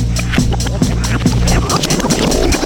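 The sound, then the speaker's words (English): A Rolodex spinning: a rapid, continuous flutter of flicking cards that rattles evenly for a few seconds without a break. “Let's take a spin through Joe and John's Rolodex.”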